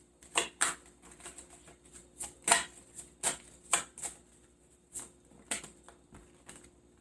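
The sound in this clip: Tarot cards being shuffled by hand: many sharp, papery slaps and snaps at an uneven pace, fairly quiet, with no voices present.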